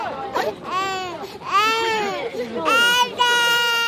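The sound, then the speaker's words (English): Infants aged 6 to 18 months cry loudly while sumo wrestlers bounce them in their arms at an open-air ring during a traditional baby-crying contest, giving repeated strained wails with bending, arching pitch, one after another with little pause. “The wrestlers try to encourage crying by bouncing the baby in their arms, making loud noises or funny faces,”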